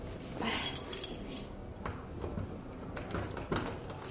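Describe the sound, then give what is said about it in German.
A key jangles and scrapes as it is tried in a door lock that it does not fit, with a loud cluster of rattling early on, then scattered faint clicks and scrapes. “Schließen Sie auf. Der Schlüssel passt nicht.”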